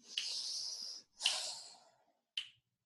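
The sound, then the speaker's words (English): A person breathes deeply during a guided breathing exercise: two long, airy, hissing breaths followed by a short sharp sniff, with no talk. “So I'm going to ask you to breathe.”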